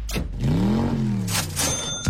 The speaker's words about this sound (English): I was like, were those cars? Here they come again.